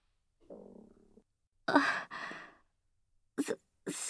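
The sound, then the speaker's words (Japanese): Stomach growling from a hungry person during a snack break, a few quiet, low gurgling rumbles separated by silences, with some breathier bursts toward the end. “すみません。今の私のお腹の音でして、”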